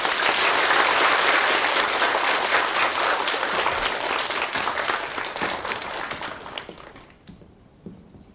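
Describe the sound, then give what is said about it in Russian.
Audience applause, a dense and loud wash of many hands clapping that holds for several seconds, then gradually thins and fades out, leaving a few scattered claps at the end. “Ну и хорошо, похлопаем.”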